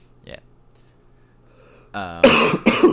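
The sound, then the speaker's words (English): Someone choking on their own saliva lets out two harsh, loud coughs in quick succession, just after a brief strained vocal sound. “No, I'm just choking on my own saliva.”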